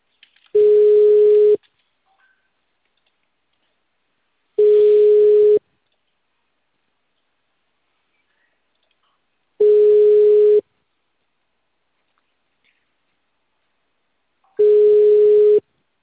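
A telephone line tone plays while a call is transferred. Four identical steady beeps, each lasting about a second, are separated by long, regular silences, with no voices.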